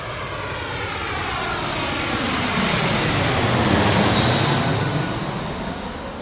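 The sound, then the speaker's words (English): An airplane's engine roar passes overhead beneath a flight path. The broad, steady rumble swells to a peak midway, then slowly eases without fading out. “My only concern is that I'm under a flight path and there may be a flight noise at some stage, but hopefully we'll be fine.”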